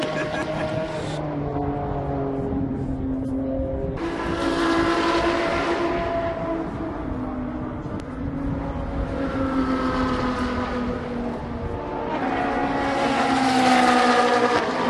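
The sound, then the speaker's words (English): Ferrari Challenge race cars at a raceway, their engines roaring past in several loud waves with shifting harmonic whine, each surge rising and falling as a car goes by over a steady background of engine noise. “this Ferrari event, Ferrari Challenge at Sonoma Raceway, I've been having a blast.”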